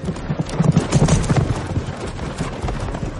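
A riderless horse running, its hooves clip-clopping in a quick, steady rhythm, with a rushing noise underneath and no talk.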